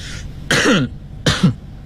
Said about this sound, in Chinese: 还得先咳嗽两声